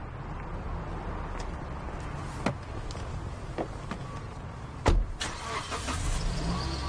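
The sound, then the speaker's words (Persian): A car drives off with a low, steady engine rumble, a few light clicks and one thump partway through, and the level swells toward the end. “ماشین حرکت میکنه.”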